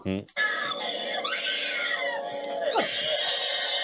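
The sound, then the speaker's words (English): A woman screams in a film scene: a loud, high-pitched, sustained cry lasting several seconds, its pitch wavering and briefly swooping downward near the end. “Now she's going to do her scream”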